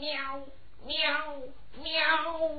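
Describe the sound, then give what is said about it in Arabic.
Cat meowing in a desert: three drawn-out, mid-pitched meows, each bending in pitch, separated by brief pauses. “مياو. الله، ايه ده؟ مياو. قطة في الصحراء؟ مياو.”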